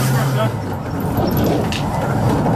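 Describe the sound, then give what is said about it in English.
A van, one of those people carriers, drives up with a steady low engine rumble and road noise while people talk over it. “Comes up in his van. Go. Those sort of people carriers.”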